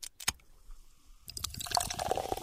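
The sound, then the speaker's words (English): Ice cubes clink in a glass as a drink is poured over them: a couple of sharp taps early on, a quiet pause, then a denser rush of pouring liquid with scattered crackling clinks that continues to the end. “Sounds like ice cubes,”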